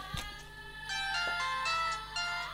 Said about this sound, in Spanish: Ahí me están llamando, mira. Está sonando mi teléfono.